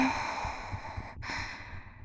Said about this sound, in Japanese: ゆっくり呼吸をしてみましょうか。はーい、吸って